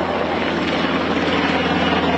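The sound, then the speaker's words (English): A helicopter flies over Mandeville Canyon in Southern California during wildfires and evacuations, giving a steady, dense, loud rotor-and-engine roar that holds level throughout. “That's the sound of a chopper flying over Mandeville Canyon”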